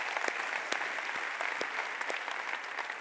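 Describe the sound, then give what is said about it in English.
Congregation applause at a church service at The Rock, greeting the East County and North County members: steady, dense clapping throughout with a few sharper individual claps standing out, and no talking. “Let's give East County and North County a hand.”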